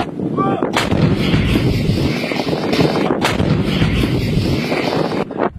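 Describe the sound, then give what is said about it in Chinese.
An artillery battery fires live rounds from a firing position during a combat drill, producing loud, booming blasts. Several heavy reports sound over a continuous roaring rumble, with wind buffeting the microphone. “炮兵分队以战斗队形占领发射阵地，完成前沿侦察、实弹装填、射击诸元计算等一系列战斗准备。炮班迅速对敌目标进行第一波次火力打击。”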